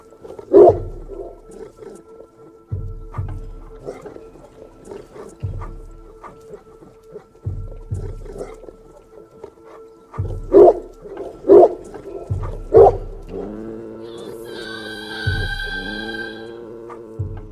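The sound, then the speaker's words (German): A dog growls at the moon in a few low, rough bursts separated by pauses, followed near the end by a longer, tonal whining sound. “Banga knurrte den Mond an”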